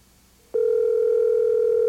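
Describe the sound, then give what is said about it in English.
A telephone ringback tone plays on an outgoing call. After a moment of near quiet, a loud, steady single-pitched tone starts abruptly and holds unbroken to the end. “Ringing sounds the same, doesn't it?”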